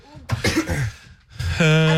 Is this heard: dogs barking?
no